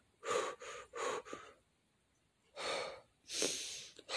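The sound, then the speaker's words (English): A voice demonstrates short, rapid chest breathing: a quick run of brief breaths, then a pause, then two longer, heavier breaths. “and then there's the chest breathing, which is your short, rapid breathing,”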